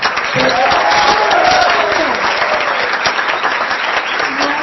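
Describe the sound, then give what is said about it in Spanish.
Loud, sustained applause at a school event for Señora Juanita, a thick, even wash of many clapping hands from start to finish with some voices mixed in. “yo le pido un fuerte aplauso a la señora Juanita”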